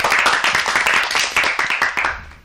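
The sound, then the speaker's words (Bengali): Loud clapping from an audience after a song, the many claps landing together in a brisk, regular rhythm of sharp beats before the sound tapers off at the very end. “জোরে হাততালি দাও, ওর গানটা খুব সুন্দর হয়েছে। এবারে বন্ধু আরেকবার জোরে হাততালি দিয়ে দিই আমরা।”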